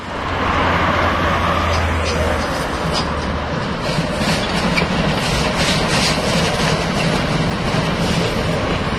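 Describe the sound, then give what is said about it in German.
A class 95 steam locomotive chugs past modern locomotives near a crossing with a federal highway, giving off a loud, continuous rumble with dense hissing and mechanical clatter that stays strong throughout. “Vor der Kreuzung zur Bundesstraße 6 stampft unser 95er vorbei an den modernen Lokomotiven der Havelländischen Eisenbahn, die sonst die Strecke befahren, vornehmlich für Transporte der Fels AG.”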